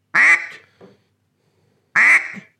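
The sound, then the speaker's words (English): Loud, nasal quacks blown on a handheld duck call: two strong raspy blasts about two seconds apart, each trailing off into a shorter, softer note. “what you were doing, you were taking it, picking it up, and when you were doing a quack,”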